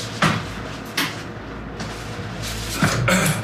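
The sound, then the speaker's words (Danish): A door being locked, heard as a few scattered clunks and clicks over a steady low hum. “Jeg låser lige af, så.”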